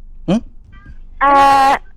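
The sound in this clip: A kitten meows twice: first a brief, high mew, then after a pause a longer, louder, strongly tonal meow held for about half a second.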